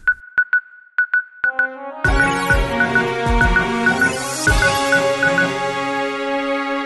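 A news-segment jingle: a string of bright, quick electronic beeps on one pitch opens it, then a loud full music arrangement with a driving beat kicks in and plays steadily to the end, with no voices.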